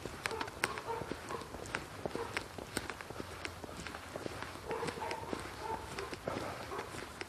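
Footsteps on a hurried morning walk, a steady run of many quick steps with crisp, regular footfalls repeating throughout, moderately loud and alone.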